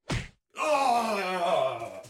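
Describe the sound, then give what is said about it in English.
A blow knocking a man out cold lands as a single dull thud, then a brief silence and a long, low, strained groan from a man's voice. “You knocked him out cold.”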